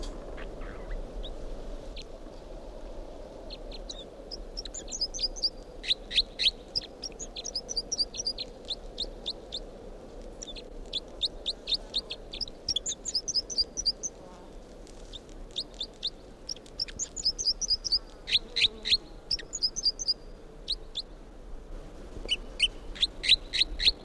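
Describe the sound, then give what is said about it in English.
Repeated bird song phrases, bright high chirping bursts arriving in regular bouts every second or two, moderately clear above a low, steady background hum, with no voices. “this is the song of bird 305”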